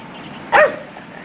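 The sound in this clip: A dog in a park gives one sharp, loud bark against a faint steady background, and a second bark is just starting at the very end.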